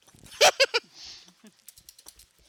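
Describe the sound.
Computer keyboard typing: a quick cluster of three loud key strikes, then a run of lighter, scattered taps.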